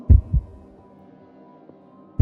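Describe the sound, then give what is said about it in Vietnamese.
A pounding heartbeat gives low, heavy thuds: a quick double beat, a pause, then another beat, loud against near silence. “Mỗi lần nó hạ giọng đếm một số thì tim tôi lại thình thịch một hồi.”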